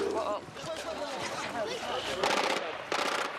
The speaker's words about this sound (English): The shots came from an armored personnel carrier speeding towards the memorial service.